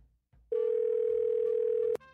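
A telephone ringback tone plays while a call waits to be answered: a single steady, mid-pitched tone lasting about one and a half seconds that cuts off abruptly.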